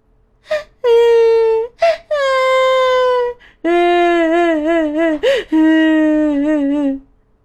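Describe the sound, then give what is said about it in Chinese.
A voice imitates children crying, with several long, loud, drawn-out wails whose pitch wavers and sags, separated by brief gasps and short sobs. “小蓝和小黄好伤心呐，他们哭了，流出了大滴的蓝眼泪和黄眼泪。”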